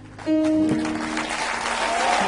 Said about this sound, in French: chaque fois que vous parlez ici de l'acclamation, là, je vois un applaudissement, vraiment.